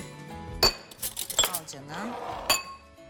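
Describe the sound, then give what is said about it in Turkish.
A spoon clinks against a bowl while stirring a dressing of olive oil, lemon juice, vinegar and crushed garlic, giving three sharp metallic taps with softer scraping and a brief voice between them. “Limon suyunu da koyduk. Bir kaşık vereceğim. Şimdi onları bir karıştıralım.”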